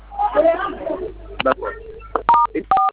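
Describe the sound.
Telephone keypad tones sound as star and hash codes are dialed: a few short, pure beeps separated by gaps, with people talking between and before them.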